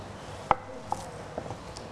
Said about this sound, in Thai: ม้วนให้แน่นนะคะแล้วก็ซอยให้ละเอียดลงเล็กเราจะมีใบมะกรูดซอย